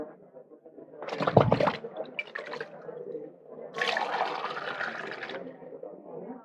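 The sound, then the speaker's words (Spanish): Water is drawn from large jars and poured into a cup, heard as two splashy, sloshing bursts of liquid separated by a short pause, the second longer and steadier than the first. “Sacad ahora el líquido en algún vaso y llevadlo al maestresala.”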